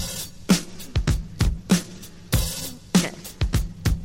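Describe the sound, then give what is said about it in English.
A slowed-down rock drum break plays alone, with punchy kick and sharp snare hits in a steady, loping groove and a bright cymbal wash between the beats. “But just the drum break from it from the very beginning, which sounds like this.”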